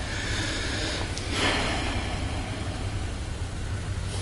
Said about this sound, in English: So I'm just going to take a breath there.